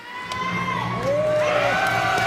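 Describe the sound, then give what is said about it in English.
Crowd cheering, with children's whoops and shouts, as officials cut a red ribbon to open a new French-language elementary school on the first day of class. The loud, sustained cheers rise slightly midway. “Cheers erupt as school officials cut a bright red ribbon in half, marking the first day of class at Cassiope Elementary School.”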